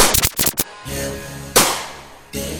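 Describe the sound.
Gunshots ring out over a rap track: a rapid cluster of sharp, loud bangs at the start, then music with a couple of heavy percussive hits later.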